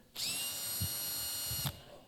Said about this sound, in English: I brought one of my favorite power tools up here, a Makita 18-volt lithium-ion-empowered